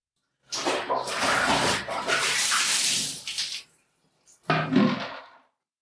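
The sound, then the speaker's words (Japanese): Hot water poured to rinse soap suds off a body, a broad splashing gush lasting about three seconds, then a brief pause and a second, shorter pour. “じゃあ、お湯で流すわね。”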